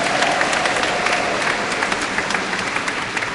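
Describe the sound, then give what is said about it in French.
Applause in a church as priests are welcomed: a dense, continuous wash of many hands clapping at an even level from start to finish. “il sait pourquoi cet applaudissement”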